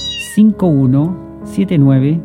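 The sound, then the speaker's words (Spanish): A kitten meows twice, each a clear, drawn-out, tonal cry that bends in pitch, with a short gap between them and a brief soft sound just before the first. “Está invitado el gatito también. Hoy día tenemos gatito. Minino, venga para acá.”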